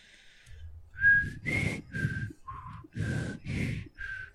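A person whistles a short tune in seven clear notes at varying pitches, each separated by a brief pause. Soft breathy sounds accompany the notes, and no voice is heard.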